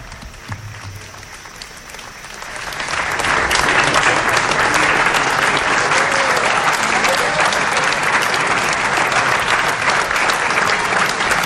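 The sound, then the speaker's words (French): Crowd applause greets the pope as he arrives on the last day of a visit. Scattered, quiet clapping swells after about two seconds into steady, sustained applause. “Voilà qui arrive sous des applaudissements clairsemés”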